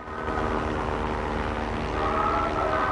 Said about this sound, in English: An airplane propeller whirs in a cloudy sky.